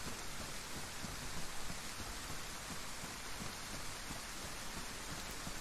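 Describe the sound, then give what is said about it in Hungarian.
Steady rain pours down in a video game, a dense, even hiss that holds at the same loudness from start to finish with no voices. “Villámlott. Megérkezett a dörgés. Ez tök jól meg van csinálva egyébként a játékban.”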